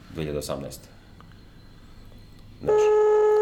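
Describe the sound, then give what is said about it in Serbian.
Telephone call tones on a speakerphone. A voice speaks briefly, then after a short pause a loud, steady electronic tone begins and holds to the end. “Ja zovem čovjek.”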